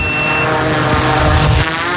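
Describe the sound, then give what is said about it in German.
A drone carrying a thermal camera lifts off during an early-morning search for fawns, giving a steady, loud, whirring buzz with a tonal whine that holds throughout, and no voices. “Fluggerät fliegt zum Haltepunkt.”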